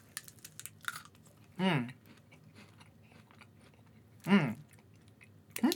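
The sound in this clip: Chewing a blueberry-flavoured KitKat: a few short, crunchy bites rise out of a quiet background, separated by long pauses.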